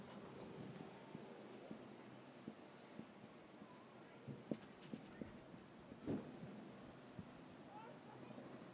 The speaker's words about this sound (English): I don't think I have this written up here. I could write it here.